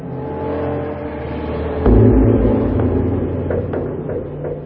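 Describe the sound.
Car engine droning steadily from inside a moving car, a low continuous hum that turns noticeably louder and rougher after about two seconds, then holds at that level with no voices.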